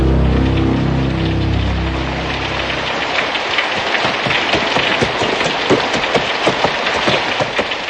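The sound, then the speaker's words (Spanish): Incessant rain hisses steadily, with a horse-drawn carriage adding irregular wooden clatters and knocks throughout. A low droning tone fades out during the first few seconds. “No había otros ruidos que el del carruaje y el de la incesante lluvia.”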